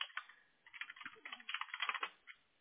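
Typing on a computer keyboard: many quick, faint keystrokes in an uneven rhythm, with short pauses between runs of keys and no voices.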